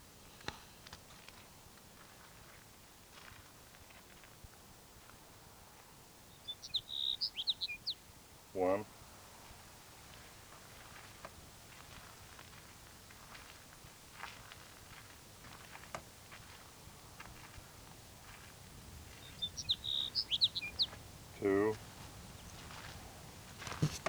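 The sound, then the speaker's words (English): Two short, thin, high-pitched songs from a Sage Sparrow come roughly thirteen seconds apart, faint against a quiet outdoor background with occasional soft clicks. “Sage Sparrow number 3.”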